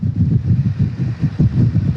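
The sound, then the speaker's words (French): A tanker truck carrying water for firefighters, driving fast through strong wind: a low, heavy engine rumble overlaid with buffeting wind noise that pulses unevenly, loud and continuous with no voices. “vous êtes toujours sur un camion citerne qui roule assez vite, on le voit avec ce vent”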